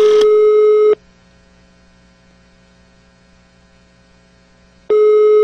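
A ringback tone sounds while a call to a cellphone is being placed: a steady, loud electronic tone lasting about a second, then roughly four seconds of near silence with a faint low hum, then the tone returns.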